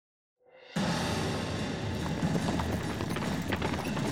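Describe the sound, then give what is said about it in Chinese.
Rapid galloping hoofbeats of horses in the distance, a Chu army riding through the night, fading in quickly and then continuing as a dense, steady drumming. “远处传来了一阵急促的马蹄声，楚国的军队正在连夜赶路”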